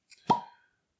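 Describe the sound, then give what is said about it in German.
A red-topped wooden cork pops out of a 43% spirits bottle with a single soft, dull plop, preceded by a faint tick, then quickly fading to silence. “Dann auch ein trauriges, eher trauriges Ploppen.”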